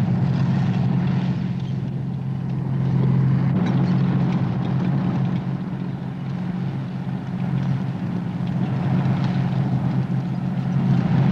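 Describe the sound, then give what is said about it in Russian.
Soviet tanks on a dirt road give a heavy, steady engine rumble: a continuous low, droning roar that holds at even loudness throughout, with no voices. “Советские танки едут по проселочной дороге.”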